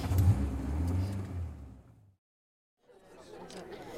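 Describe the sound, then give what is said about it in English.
A car engine revs and pulls away, its low rumble fading out to silence before faint noise returns. “Swap over. I'll get us there if you like. No! My wheels. I'm driving.”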